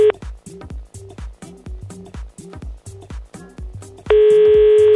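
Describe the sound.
A telephone dials out with a quick run of short keypad tones, followed by a long steady tone.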